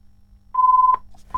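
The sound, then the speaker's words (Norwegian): An electronic ringing signal in a bingo game: a clean, steady mid-pitched beep held for about half a second, a short silence, then a second identical beep starting. “Og der ringer det allerede igjen.”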